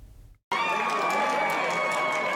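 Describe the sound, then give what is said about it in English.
Crowd cheering erupts at an election night party as a Wisconsin Supreme Court race is called. It bursts in abruptly after a moment of near silence, then holds as a loud, sustained roar with shrill tones riding on top. “The crowd at Chris Taylor's election night party expected her to win the election for a seat on the Wisconsin Supreme Court. But that confidence didn't diminish the excitement for when the race was officially called before 9 o'clock.”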